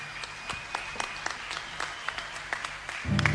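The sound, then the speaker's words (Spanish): A standing audience applauds at the end of a song at a 2011 concert in Chilean Patagonia: steady scattered clapping with sharp individual claps over a faint hum, growing louder and denser in the final moments. “El público de pie aplaude, agradece las entregas, la canción”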